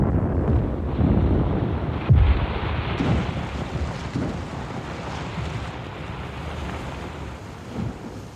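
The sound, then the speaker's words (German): A dull underwater explosion near a steep, rocky riverbank thuds once, low and muffled, early on, set in a steady roar of rushing, churning water that carries on to the end. “Eine dumpfe Explosion unter Wasser.”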